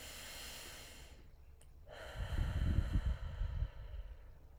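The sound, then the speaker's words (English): A deep breath drawn in and let out, a soft airy rush that swells after a hushed start and fades toward the end, heard alone without talk. “just take a deep breath with me.”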